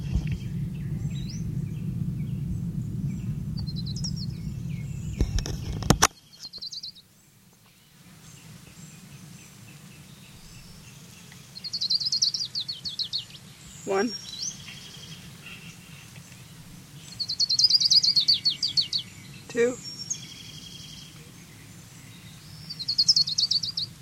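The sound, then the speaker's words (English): Orange-crowned warbler song: a few bursts of high, thin trills, rising clearly above a steady low rumble, with a couple of sharp clicks in between. “Here's Orange Crown Warbler number 5.”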